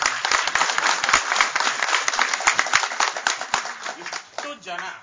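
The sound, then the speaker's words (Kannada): Audience applause thanking devotees at a religious gathering, dense steady clapping lasting about five seconds and thinning near the end, with a voice heard through it. “ಆ ತತ್ವಾಭಿಮಾನಿಗಳಿಗೆ thanks ಹೇಳ್ಬೇಕಲ್ವೋ? ಚಪ್ಪಾಳೆ.”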